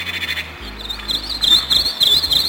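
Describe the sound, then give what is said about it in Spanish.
Birdsong plays back from an old cassette tape: thin, warbling high chirps that start faint and grow clearer and busier after the first second, over a low steady hum. “Ya los únicos pájaros que puedo oír cantar son los que grabé con mi viejo cassette. Escucha, pequeña.”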